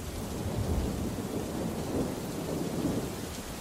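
Thunder rumbles low and continuously through a storm with lightning, blended with steady rain, forming a dense, unbroken wash of noise with no clear separate claps.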